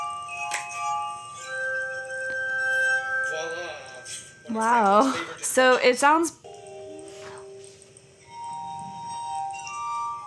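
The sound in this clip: Rubbed glass bowls, played like wine glasses, give long sustained ringing tones that overlap and shift between pitches. People talk and exclaim over them in the middle.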